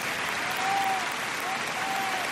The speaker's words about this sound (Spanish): Y este es el aplauso de todos los aficionados españoles a la selección de Ucrania.